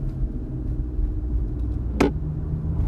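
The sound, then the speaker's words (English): Inside a car cruising around LA, steady low road rumble and engine noise fill the cabin, broken once by a brief sharp click. “Look, I'm driving right now, if you couldn't tell.”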